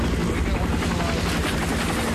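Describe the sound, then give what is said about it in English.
A Huey helicopter lowers into a piazza outside a school, its rotor and engine a loud, dense, steady roar with a rapid pulsing texture throughout. “A Huey lowers down into the piazza by the wounded GI outside the school. As the medics lift the wounded man into the chopper”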